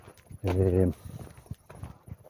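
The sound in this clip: Footsteps walk through a park as a few soft, regular steps after a short, loud voiced sound near the start.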